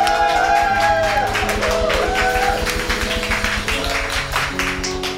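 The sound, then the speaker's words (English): Congregation applause welcoming a pastor to the pulpit during a church worship service: dense, loud, sustained clapping from many hands over steady held tones, easing slightly toward the end. “Let's give him a big hand and welcome him here right now.”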